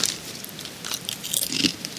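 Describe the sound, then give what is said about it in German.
Potato chips crunch as people eat them, a quiet run of crisp, crackly bites and chewing with many short snaps bunched together, no talk over them. “Jetzt sitzen wir wieder hier. Mm. Essen Chips.”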